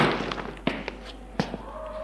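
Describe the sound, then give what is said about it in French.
A suitcase is set down on the floor, giving two dull, fairly loud thuds about three-quarters of a second apart, with a few small clicks and knocks between them over a steady low hum. “Gilles pose sa valise à terre”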